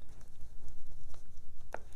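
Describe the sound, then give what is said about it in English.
Pen scratching across paper as someone writes by hand, a busy run of short, dry strokes in an uneven rhythm over a low steady hum. “I'm writing it down. Y'all know I can't talk and spell at the same time.”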